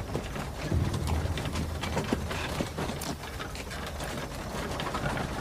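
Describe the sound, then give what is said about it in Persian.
Horse-drawn carriage leaving a citadel, with many irregular hoof clops and clattering wheel noise spread over a steady, rough wash of noise. “کالسکه از ارگ خارج میشه.”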